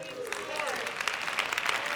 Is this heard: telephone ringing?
no